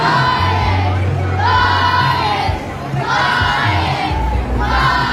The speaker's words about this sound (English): Thousands of Brisbane Lions fans are giving their premiership heroes a huge welcome home. The party is underway at Brisbane's River Stage, packed with maroon, blue and gold after the Lions' spectacular AFL Grand Final win.